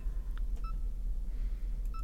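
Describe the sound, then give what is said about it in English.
An internet radio gives short electronic progress beeps while tuning a station: a few high, clean tones in quick pairs, over a steady low hum. “I like the fact it's got a beep there as a progress beep.”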